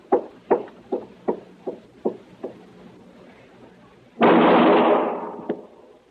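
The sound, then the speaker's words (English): Seven gunshots crack in quick, evenly spaced succession in a radio western drama, each a sharp, dry report that decays fast and grows slightly softer as the volley goes on. “All right, that's enough shooting”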